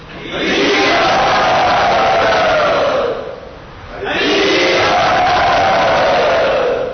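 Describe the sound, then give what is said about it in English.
A crowd loudly chanting "Hari Bol" in unison to welcome a guest, two long, sustained calls, each sliding downward in pitch, separated by a brief dip in volume. “So I'd like you to all welcome our dear friend Pancharatra Prabhu by very loudly chanting”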